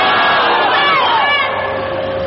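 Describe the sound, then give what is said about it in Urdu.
A large crowd shouts Allahu Akbar in unison, answering a Nara-e-Takbeer call at a religious gathering. The chant is loud and sustained, with many voices blending into one roar that eases slightly toward the end. “نعرہ تکبیر.”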